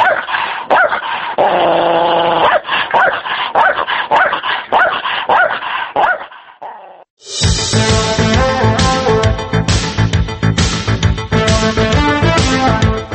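Stray dogs barking, yipping and whimpering in rapid, overlapping bursts for about six seconds, after which loud music starts and carries on to the end.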